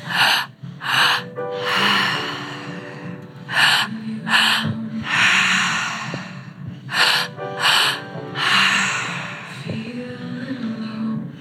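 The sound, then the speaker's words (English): Forceful rhythmic breathing during an active breathwork session. Loud, quick snorting inhales alternate with longer rushing exhales in repeated cycles, and a low steady tone hums faintly beneath. “Just a handful of minutes of active breath more.”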